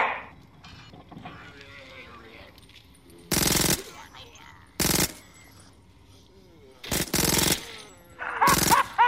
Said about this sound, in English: I saw it this time. I saw you shoot down the 2 zombies.